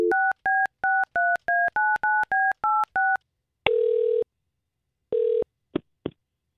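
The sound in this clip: Touch-tone telephone dialing as a call is placed: a rapid run of short, evenly spaced keypad beeps, followed by two longer steady ringing tones and a few brief clicks, with no voices.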